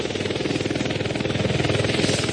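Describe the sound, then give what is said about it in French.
A small helicopter engine mounted on a harness on someone's back runs with a loud, rapid and steady throbbing chug that carries on through the whole clip, with no voices. “Le moteur est attaché dans mon dos par un harnais. Je vais voir si ça fonctionne. En principe, ça doit marcher. Je dois faire vite. J'essaie maintenant de le lancer.”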